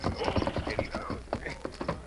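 A horse's hooves clip-clop as a rider comes into town and pulls up in front of a cafe. Many quick, uneven hoof strikes follow one another at moderate loudness.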